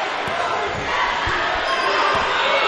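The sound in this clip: Slow basketball dribbling on the court during a Longhorns basketball game: a few dull, low bounces thud at an unhurried pace beneath steady, loud crowd noise.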